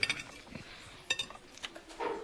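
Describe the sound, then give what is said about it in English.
A knife cuts a slice of cake on a plate, giving a few faint, light clinks and scrapes of metal against the plate, spaced irregularly and heard alone. “Come on, cut a slice and taste it.”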